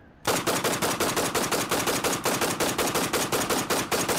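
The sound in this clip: Rapid automatic gunfire, a weapon handled at a children's arms workshop, bursts in after a brief quiet start: many sharp, loud shots in an even, fast rhythm lasting about four seconds.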